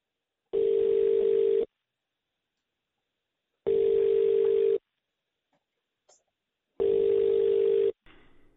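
Three long, steady mid-pitched tones, evenly spaced with silent gaps, play as the hold signal while a caller waits to cancel a Digi phone contract. A few faint clicks fall between the tones, and no voices are heard.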